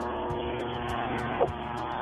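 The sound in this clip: A lawn mower engine drones steadily over a phone line while the caller mows the lawn during a phone-in. The hum is buzzy and constant, with a brief bump near the end.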